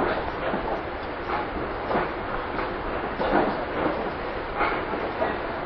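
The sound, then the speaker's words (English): Ride inside a moving passenger train in 2002: a steady, muffled rumble of the carriage with faint rhythmic clatter from the rails, continuous and moderately loud, with no clear speech. “This tape can be called Playing Monopoly on a Handheld Computer on a Train in 2002.”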